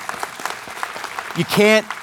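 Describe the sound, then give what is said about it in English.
A church audience claps during a sermon in praise of Jesus, a quick patter of many hands that swells near the end while a loud, tonal voice calls out over it. “When Jesus, everyone clap for that, we can clap for that, amen.”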